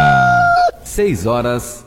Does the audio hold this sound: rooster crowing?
yes